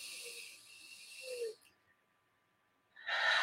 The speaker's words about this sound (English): Take a deep breath. Let it go. In through the nose.